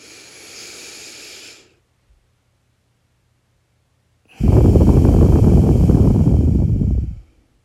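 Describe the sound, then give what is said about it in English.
A person breathes deeply in and out. A soft, airy inhale is followed by a pause and then a long, loud, rushing exhale that fades out. “So take a deep breath with me and let's talk self-care.”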